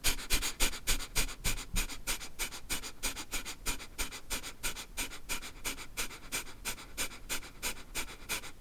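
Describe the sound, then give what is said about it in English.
Rapid short breaths in and out through the nose, pumping from the stomach, in a quick, even, panting rhythm. Many sharp breathy bursts follow one another steadily throughout, with no talking. “You're pumping the stomach and you're closing your mouth and you're breathing in and out through your nose. And you turn it into a longer breath. So the short breath would sound like this.”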